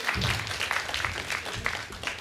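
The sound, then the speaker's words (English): A small round of applause for two men who have just planted seeds at a gardening demonstration: faint, uneven clapping with distinct individual claps. “So can I say thank you to you two? Can we give them a round of applause?”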